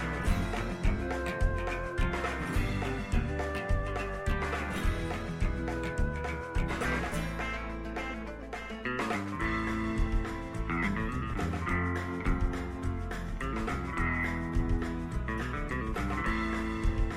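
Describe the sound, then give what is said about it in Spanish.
Instrumental radio theme tune, with every instrument recorded by its composer, plays throughout: a full, steady arrangement with a regular beat and sustained melodic lines, with no voices over it. “Él grabó todos los instrumentos de esta sintonía, que se llamó Toma Uno.”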